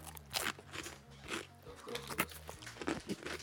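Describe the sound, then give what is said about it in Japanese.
Crunching and chewing of a thick, stick-shaped potato snack with teriyaki burger flavour: many crisp bites and crackles at a steady pace, fairly quiet, with no talk. “おじさんが照り焼きバーガー味のポテト食ってます。”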